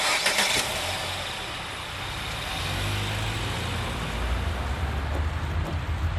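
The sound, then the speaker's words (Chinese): A car engine starts and the car drives off, with a brief burst at the start followed by a steady, broad rumble and low engine tones. “走吧，开车， 好， 往前开。”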